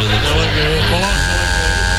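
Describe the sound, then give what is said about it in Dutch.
A loud game-show buzzer sounds in a quiz-style game, a harsh, steady, rasping tone that holds unbroken throughout, with a voice heard over its first half. “Daar gaat de zoemer.”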